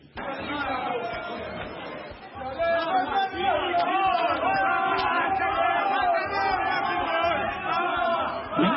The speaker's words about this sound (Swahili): tunasikia hapo kwamba watu wakionyesha shangwe na furaha